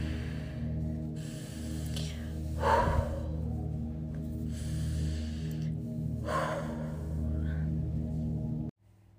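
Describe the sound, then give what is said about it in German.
Slow breathing in and out during a seated cross-legged yoga exercise: a few soft, airy breaths over gentle sustained music. “Und ein- und ausatmen.”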